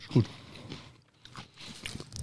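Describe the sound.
Crunch of biting into a spelt wholegrain spekulatius biscuit: one crisp, fairly quiet bite near the start, followed by softer mouth sounds and low talk.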